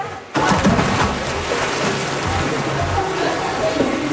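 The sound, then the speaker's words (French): Water splashing and churning as a woman dives through a hoop among a group of women swimmers. A sudden burst of water noise begins early and continues as a steady sloshing rush. “Voilà, elle vient de plonger au travers du cerceau.”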